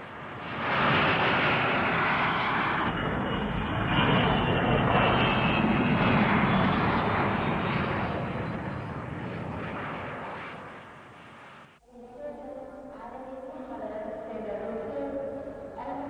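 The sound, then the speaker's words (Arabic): An airplane roars as it comes in to land. A broad, steady engine rumble swells and holds for about eleven seconds, then cuts off abruptly into much quieter sound. “عن إذنك، الطيارة قربت تنزل.”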